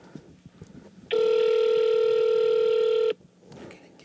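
A telephone keypad tone sounds while a caller dials star six seven to hide their number. The clear, steady electronic beep holds for about two seconds and stands alone over faint background noise.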